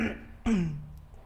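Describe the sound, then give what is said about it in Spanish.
One person clears their throat of mucus still draining after nose surgery: a single sharp, rough burst, then a short voiced rumble that sinks slightly in pitch and fades. “Me acomodo la garganta porque todavía me fluye mucosidad por mi faringe.”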